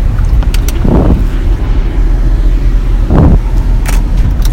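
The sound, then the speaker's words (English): A car is driving, with loud, steady road rumble and wind roar throughout and a couple of brief swells in the noise. “I'm driving y'all”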